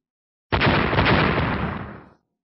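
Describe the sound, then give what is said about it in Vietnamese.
A deafening explosion bursts in with a sudden, sharp onset, then holds as one dense, loud roar for over a second before dying away. “Lại vang tiếng nổ điếc tai”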